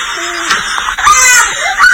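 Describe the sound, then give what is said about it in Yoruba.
A baby being breastfed cries in short, high-pitched, strained wails with brief breaks between them, loud throughout. “ọmọ tí ìyá yẹn ń fún lọ́mú òun ló ń ké yẹn.”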